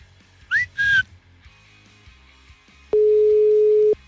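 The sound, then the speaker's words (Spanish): An unanswered telephone call: two short, high electronic tones, then a single steady, lower ringback tone lasting about a second, with quiet gaps around it. “Le estoy marcando nuevamente a Susana y no nos contesta Susana.”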